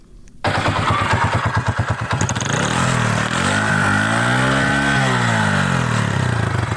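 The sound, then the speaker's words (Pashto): Motorcycle engine of a milk seller, starting abruptly and then running loud and continuous, its revs rising and falling in pitch a couple of times. “دا رپورټ یې جوړ کړی چې د شیدو خرڅونکي یو کس د موټر سایکل له غږه پیل کړي”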